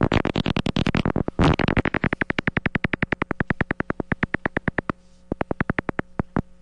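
Silver-haired bat echolocation calls slowed down by a bat detector become a long train of loud, dry clicking pulses, crowded together at first, then settling into a steady rapid beat with a brief pause near the end.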